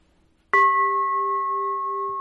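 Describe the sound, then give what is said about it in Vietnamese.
A meditation bell struck once, a crisp metallic strike that blooms into a clear, sustained ringing tone with steady overtones, decaying only slightly and alone in near silence. “Đây là chuông.”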